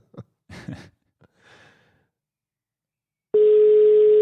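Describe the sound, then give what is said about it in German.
A telephone line tone is heard while an international call to Spain is being placed. A few soft breathy noises come first, then the steady tone starts partway through and continues unbroken to the end. “Mal gucken, wie die Verbindung nach Spanien ist. Ist jetzt natürlich ein bisschen weiter weg alles.”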